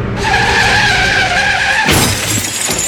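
Car skidding and crashing: loud tyre squeal of a long, high, steady screech, then an abrupt impact with shattering glass and crunching metal that fills the last second.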